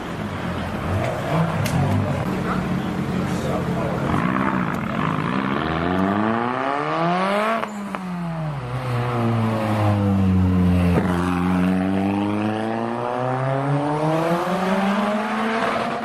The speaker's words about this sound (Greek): Nissan, Sunny, GTIR.